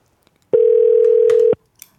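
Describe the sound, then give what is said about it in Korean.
A telephone dial tone sounds as a call is placed: one steady, unbroken electronic tone lasting about a second, clear and alone, with faint clicks before and after. “전화 한번 걸어보자고요.”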